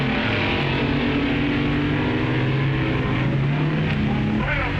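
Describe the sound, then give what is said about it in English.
Loud engine roar from drag racing cars, including the Dragmaster, launching off the line down the strip. A continuous, dense drone with shifting tonal pitch holds at a steady high level throughout. “The Dragmaster with a lower ET, but Tets getting off the line better. Well, that's drag racing.”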